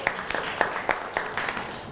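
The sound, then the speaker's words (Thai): Students in a class clapping for themselves: a group claps in a brisk, regular rhythm, each clap crisp and of similar loudness, for about two seconds. “ทุกกลุ่มเรียงตามที่เพื่อนเล่าไม่เอ่ยปรบมือให้ตัวเองหน่อยครับ”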